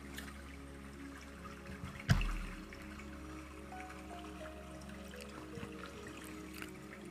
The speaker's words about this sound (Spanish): Vamos a hacer una pequeña meditación y concentrarnos en el agua.